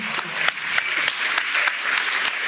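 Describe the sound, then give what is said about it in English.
Audience applauding a guest after a question-and-answer session, a dense, lively stream of claps with individual sharp hand strikes popping out over the steady roar. “And let's give Stanley another applause nice.”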